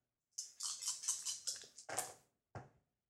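Two dice rolled during a tabletop role-playing game's damage roll: a rapid, rattling clatter lasting about two seconds, then one short click after a brief pause, with no talk.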